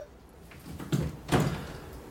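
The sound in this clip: A door being opened to release someone who had been locked in: two soft, rumbling scrapes about half a second apart, the second slightly louder, heard on their own without talking.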